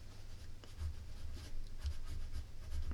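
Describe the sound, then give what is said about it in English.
Pen scratching across the pages of a small notebook: soft, continuous scraping strokes with small bursts of emphasis, quiet throughout over a low steady hum, with no voices. “I shall write that down in my small notebook now.”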